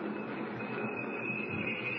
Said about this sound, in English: Train's slowing down. Coming into a station, I guess.